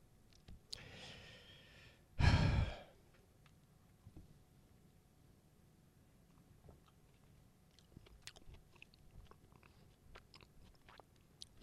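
A bite is taken from a slice of peach pie, with a loud breathy burst early on followed by long stretches of faint, scattered chewing and mouth clicks.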